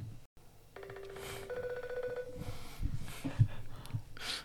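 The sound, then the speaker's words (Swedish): An outgoing call rings through a social media app: one steady electronic ringing tone with bright overtones lasts about a second and a half, followed by rustling handling noise and faint breathing. “Men du, jag testar en gång till här. Och det är inte så att man kan ringa upp honom på Instagram eller?”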